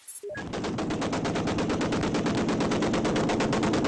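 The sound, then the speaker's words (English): Rapid automatic gunfire as rebel fighters come under fire from pro-Qaddafi troops while pushing into the oil port of Brega, Libya: dense, continuous machine-gun bursts that stay loud and unbroken from start to finish. “The sound of rebel fighters coming under fire from pro-Qaddafi troops as they pushed into the oil port of Brega this morning.”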